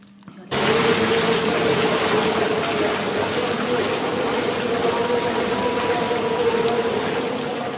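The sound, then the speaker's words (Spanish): Rushing water from a canoe descent through open water at a sports event: a steady, dense hiss that starts abruptly after about half a second and holds loud and even to the end, with a faint steady tone running underneath. “Diría que es descenso, eso es. En piragua en agua abierta.”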